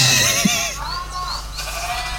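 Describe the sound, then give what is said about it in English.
Lamb bleating on a farm: a few quavering, wavering bleats, the loudest ones at the start, then fainter calls over a steady background hum, with no voices. “It literally just sounds like lamb. Wow, that one's dying.”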